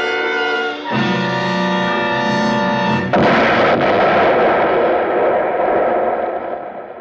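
A spaceship explodes in a science-fiction drama. A steady droning tone with stacked harmonics shifts once, then a sudden loud blast bursts out and rumbles on, slowly fading over several seconds.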